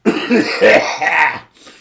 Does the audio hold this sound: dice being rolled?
no